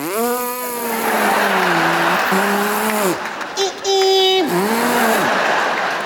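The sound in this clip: A voice imitates a Toyota Prius accelerating onto the freeway: a sustained, wavering hummed engine tone broken by brief pauses, with a short higher whine near the end before dropping back low.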